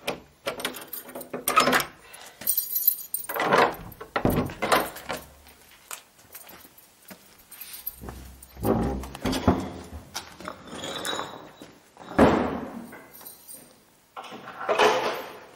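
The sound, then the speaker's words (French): Keys jangle and scrape in an old lock being worked open with care. Uneven bursts of metallic rattles, clicks and clunks are mixed with a couple of low thuds. “Allez, je suis très prudent parce que c'est une vieille serrure. Il faut la manipuler avec beaucoup de précautions.”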